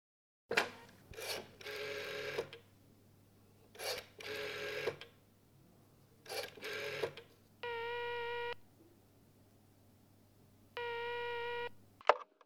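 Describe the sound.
A telephone dials the emergency number 110. Several groups of raspy clicking bursts are followed by two steady, evenly spaced ringing tones, and the sequence ends with a sharp click.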